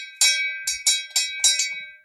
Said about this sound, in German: Mach die Glocke. Läute die Glocke.